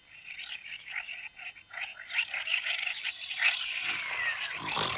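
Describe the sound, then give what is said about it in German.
Frogs croaking in a dense, continuous chorus of rapid, raspy pulses that keeps going throughout, fairly faint, with no voices. “Die Vögel zwitschern. Die Frösche quaken.”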